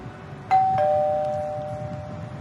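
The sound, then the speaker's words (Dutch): A doorbell at a residential front door in Amsterdam's Jordaan sounds a two-tone chime. A higher note is followed by a slightly lower one that rings on and slowly fades over a quiet background hum. “In de hoop dat we een oud bewoner van Pension de Tijdgeest vinden, bellen we aan bij adressen die we hebben gevonden op een woningkaart uit 1975”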